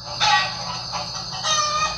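Chickens cluck and squawk in a few raspy bursts, with a steady bed of noise between calls. No one speaks.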